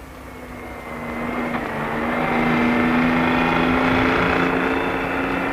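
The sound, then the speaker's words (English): A car engine runs in a steady drone, swelling over the first two seconds and then holding level, with a constant low tone under a broad rumble; no voices are heard. “Cut your motor from here and run down in neutral.”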